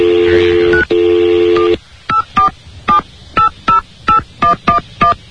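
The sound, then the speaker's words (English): A telephone number being dialled on touch-tone keys: a sustained tone, briefly cut once, then gives way to a quick, even run of short, loud, clean beeps, one per key press. “let's dial it up here. Let's get the... here's the number right here.”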